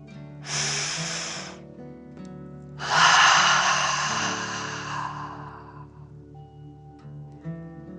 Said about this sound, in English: And let's take another deep dragon breath, in and out.